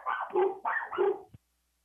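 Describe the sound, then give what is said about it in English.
A dog barks four times in quick succession, grouped as two pairs of mid-pitched woofs, ending in a short click and then silence. “That's the dog.”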